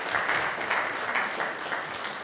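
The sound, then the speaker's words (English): Audience applause breaks out for someone who has just shared a personal family story, a steady, dense patter of many hands clapping at moderate level that continues evenly without pause. “Let's just give Chelsea a round of applause.”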